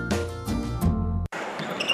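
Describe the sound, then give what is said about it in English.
A basketball bounces on the court during a Friday-night high school game in New Hampshire, making hard thuds within a busy, full-sounding game soundscape that drops away briefly partway through. “This may sound like a typical high school basketball game being played on a Friday night in New Hampshire.”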